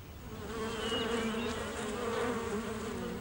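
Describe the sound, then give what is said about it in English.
Honeybees buzzing near a beehive make a soft, steady, droning hum that holds without a break from start to end. “Look at the honeybees.”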